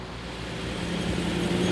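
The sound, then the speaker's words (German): Smoky convoy of two-stroke cars driving along a country road between rapeseed fields in Western Pomerania, producing a continuous buzzing engine drone with road noise that grows slightly louder over the short stretch. “Punkt 16 Uhr macht sich die qualmende Karawane auf nach Anklam. 12 Kilometer Strecke. Hoffentlich bleibt alles dran. 2-Takt-Dunst zwischen den Rapsfeldern in Vorpommern.”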